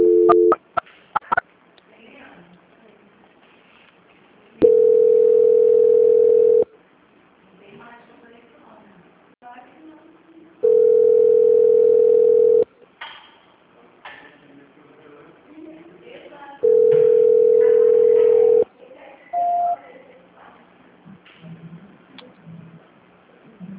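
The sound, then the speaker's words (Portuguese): Three long, steady telephone tones play while a call is being transferred, each lasting about two seconds and spaced roughly six seconds apart. Short beeps open the sequence, and quiet voices and faint clicks fill the gaps. “Só um momento, só aguardar, por favor. Transferência.”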